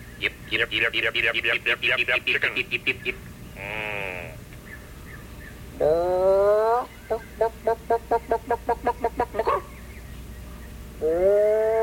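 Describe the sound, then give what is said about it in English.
Rapid bursts of chicken clucking come in quick rhythmic runs, alternating with a few longer, drawn-out animal calls. The calls are loud and clear and heard on their own. “Chicken.”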